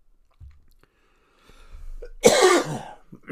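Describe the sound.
A person coughs and clears their throat because of a bit of feather caught there. Soft rough sounds lead into one loud, harsh burst that fades quickly, with no talk.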